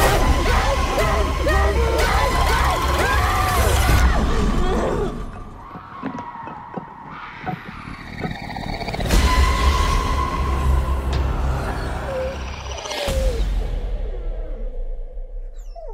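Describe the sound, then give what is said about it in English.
Trailer for the brutal, bloody Australian horror film Talk to Me: tense voices over a dark, loud soundtrack, with whooshes, skids and crashing hits, a sudden drop midway and a sharp impact near the end. “That's the trailer for the new brutal and bloody Australian horror film, Talk to Me.”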